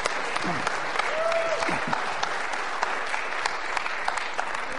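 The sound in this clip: Audience applause greets a guest speaker: a dense, steady wash of clapping hands holding an even level throughout, with a voice briefly heard over it.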